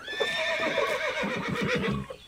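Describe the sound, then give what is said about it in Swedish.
A horse whinnies in a long, high, wavering neigh lasting about two seconds, with soft thudding underneath; one of two horses standing by a paddock fence as hay is brought. “Med ett glatt gnägg böjer sig hästarna fram och börjar mumsa på höet.”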